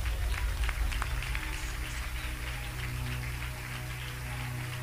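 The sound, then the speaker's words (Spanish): Congregation clapping during a church sermon, a dense, steady wash of many hands that stays fairly even throughout, with a low hum running underneath. “Dan palmas a Dios por eso, hermano.”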